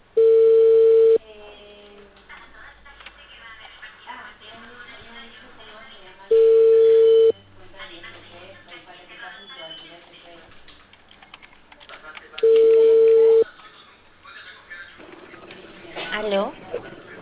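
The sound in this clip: Phone ringing tones on a call to a cable company's collections department: three long, steady, even tones at regular intervals, with busy background sound and voices in the gaps between them.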